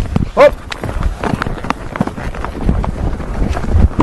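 A horse trots with a rider on board during a riding lesson, its rhythmic hoof beats and tack rattles mixed with wind buffeting and breathy noise, steady and moderately loud throughout.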